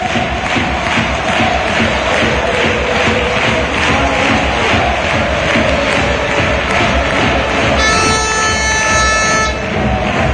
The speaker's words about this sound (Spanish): Auténtico golazo ha metido, le ha dado los tres puntos al Recre. Escuchamos al público. Vamos a disfrutar.